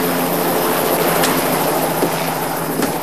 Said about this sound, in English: the helicopter sweeps away from the building